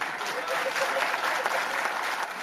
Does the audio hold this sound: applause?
yes